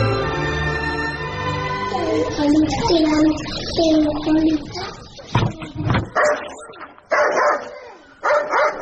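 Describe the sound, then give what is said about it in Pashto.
A dog barks as guests arrive at a village elders' gathering. People talk first, then several sharp, loud barks break out in uneven bursts through the second half. “دا سپی دې در وګرځوه چې ومې نه داړې.”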